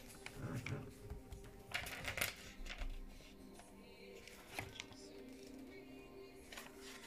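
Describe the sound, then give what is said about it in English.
Pages are flipped through in a few brisk, papery bursts of rustling over quieter handling noise. “funny how you do that, like just flip through the pages and then it's there. Pops up.”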